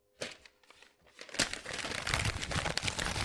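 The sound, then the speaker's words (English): Paper, a house deed, is ripped up: a few short tearing rips come first, then a longer, louder stretch of continuous crinkling and tearing. “You hear that? You know what that is? I'm ripping up my deed to my house”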